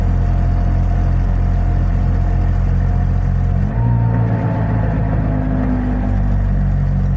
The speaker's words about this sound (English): One thing you find is that no two Trabants will ever sound the same. Like, mine is very, very, very heavy with the, you know, the typical two-stroke ning, ning, ning, ning, ning noise.